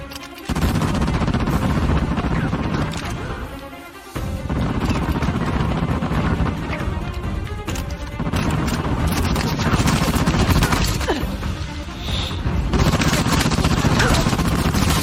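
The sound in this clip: Rapid carbine gunfire: many loud, sharp shots packed into dense bursts that run almost without pause, with a brief dip in the volume partway through.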